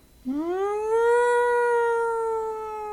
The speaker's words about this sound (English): of the sirens coming your direction. Oh, sounds like the pound trucks are coming.